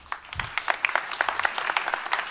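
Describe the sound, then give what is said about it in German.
Audience applause greets a youth group's presentation: many distinct, crisp claps in a loose, moderately quiet patter that continues steadily. “Einen herzlichen Applaus und viel Spaß.”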